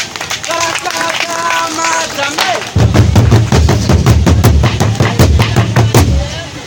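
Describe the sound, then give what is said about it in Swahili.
An audience claps for guests. A person speaks first, then loud, rhythmic clapping breaks out and continues strongly to the end. “Hiyo wengine wote tupigie makofi wageni wetu.”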